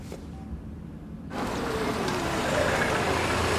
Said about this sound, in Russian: К детскому дому подъезжает темно-красная машина.